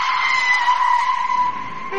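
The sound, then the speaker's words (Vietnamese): A car brakes suddenly on a still, snowy night, giving a sustained, loud tire squeal that holds an even high pitch for about two seconds before easing slightly at the end. “đêm tuyết tĩnh mịch, một tiếng thắng gấp đột ngột vang lên.”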